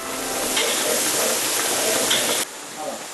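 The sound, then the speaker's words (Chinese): Fish cooking in a pot as a big spoonful of dried chili powder goes in, a steady, loud sizzling hiss that cuts off abruptly near the end, leaving a quieter hiss. “大勺的干辣椒粉在鱼肉刚刚熟透的时候下锅”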